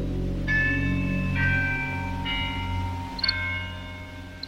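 A bell strikes the hour at ten o'clock, sounding several slow, evenly spaced ringing strokes whose bright tones overlap and linger over a steady low drone.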